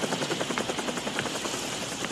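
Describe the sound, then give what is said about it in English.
A helicopter lowering a ladder produces a rapid, steady rotor chop over a broad engine rush, fairly faint and without voices. “And a helicopter lowers a ladder,”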